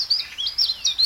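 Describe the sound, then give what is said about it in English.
A chiffchaff calling: a quick run of bright, high chirps that rise and fall in short bursts, clear and fairly loud with nothing else over them. “This is the call of the chiff-chaff.”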